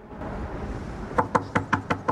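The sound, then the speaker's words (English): Six firm knocks on a motel room door, evenly spaced and hollow-sounding, coming after a stretch of steady low background noise. “knocks on a door.”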